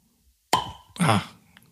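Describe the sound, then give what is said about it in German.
A synthetic plastic cork is pulled from a half-litre black bottle of 43 percent spirit, giving a sharp squeaky pop followed moments later by a second short, breathy burst as it comes free. Nothing else sounds around it. “schön Geräusch vom Korken. Korken, auch wieder gute Sache. Schön dicht und Kunststoffkorken, Vorteil, korkt nicht.”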